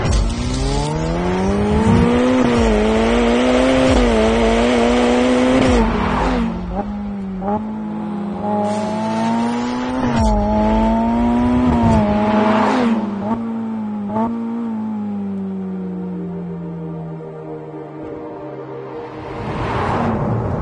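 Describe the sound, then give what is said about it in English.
Ferrari F8 Tributo with a paddle-shift gearbox driving, its loud engine note climbing and dropping through quick gear changes, with brief dips between pulls and no talk over it. “there is always one paddle shift gearbox that I think I'd struggle to live without. It's this. It's Ferraris.”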